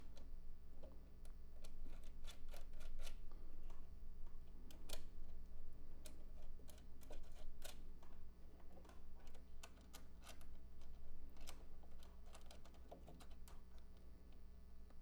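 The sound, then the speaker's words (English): A screw fitted with washers is driven down into slightly chewed-up threads. Many sharp, irregular ticking clicks sound over a low steady hum, fairly quiet throughout. “I'm gonna use some more washers on the top of this. And now I can screw this down.”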